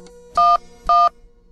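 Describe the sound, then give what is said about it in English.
Cell phone keypad tones dialing 911: two steady dual-pitched beeps, each about a fifth of a second long, separated by a short gap and heard alone over a faint low hum. “we're going to trace the path of a 911 call from a cell phone, starting at the beginning.”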